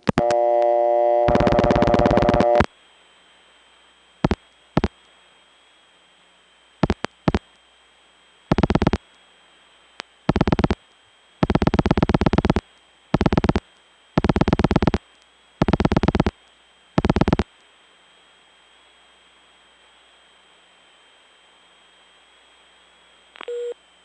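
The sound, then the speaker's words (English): Telephone signalling tones from an operator keying the 011-114 coin-check and routing-inquiry code on a phone line: one long multi-tone burst, then a series of short, sharp tone bursts in uneven groups over a faint steady hum. “the coin check and routing inquiry was accomplished by the operator dialing 011-114, and then the area code and prefix you wanted to check for. So rather than having her do it, I'm going to do it.”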